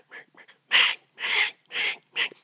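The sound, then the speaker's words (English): A person vocally imitates the call of a hen mallard duck: a few soft sounds, then four loud, raspy, nasal quacks in an even series, with no other sound. “And that's how that hen mallard talks.”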